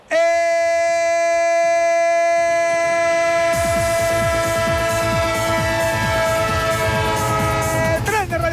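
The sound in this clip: A loud train horn holds a sustained, multi-tone chord, then the rhythmic clickety-clack of rolling wheels joins beneath it and continues steadily to the end.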